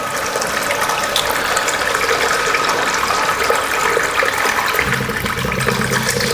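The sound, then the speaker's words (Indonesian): A toilet flushing after urination: a steady, loud rush of water, full and unbroken from start to end. “aduh ya ini saya kencing dulu ya”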